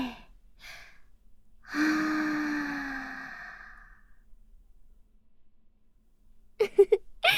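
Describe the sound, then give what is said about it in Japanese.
During a guided breathing exercise, someone takes a faint deep inhale, then lets out a long, audible voiced exhale that slowly fades away. After a pause, a brief voice comes in at the end. “最後の1回、大きく吸って、長く吐いて、”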